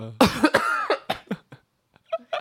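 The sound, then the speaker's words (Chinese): A person coughs after straining their throat speaking French with guttural sounds. A quick run of several harsh, voiced coughs is followed by a short pause and two fainter coughs. “讲法文讲到咳嗽”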